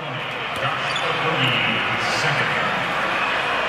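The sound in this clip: A basketball is dribbled during an NBA game against the Minnesota Timberwolves, with a few sharp bounces heard under steady crowd noise while commentators talk over the play.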